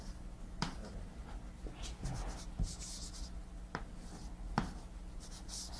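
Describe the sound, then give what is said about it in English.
Hand-drawn diagram strokes, a pen or marker sketching linked nodes and pointers, come through as scratchy rubbing marks broken by a few sharp taps, fairly faint and steady, with no voices. “So I guess I'll draw it like this.”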